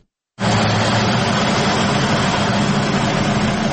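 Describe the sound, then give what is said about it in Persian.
A small electricity turbine in Doab village, Khinjan district, Baghlan, starts after a short silence into a loud, steady whirring roar with a constant low hum underneath. “این توربین کوچک در روستای دوآب ولسوالی خنجان ولایت بغلان برای حدود 50 خانواده انرژی برق تولید می کند.”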